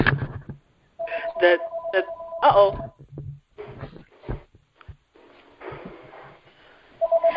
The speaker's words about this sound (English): If you hear a phone in the background